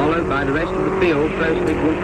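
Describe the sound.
Alfa Romeo race cars racing on the first lap of the European Grand Prix at Silverstone, a continuous loud engine drone heard under spoken commentary.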